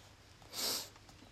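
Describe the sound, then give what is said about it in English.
A single short nasal sniff from someone with the sniffles, faint and breathy, lasting well under a second, with no talk around it. “I got the sniffles, I'm sorry.”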